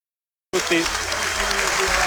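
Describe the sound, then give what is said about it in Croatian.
A football stadium crowd applauds at the end of the first half, the sound cutting in abruptly after a brief silence and holding as a loud, steady wash of clapping and crowd noise. “Pljesak za kraj prvog poluvremena.”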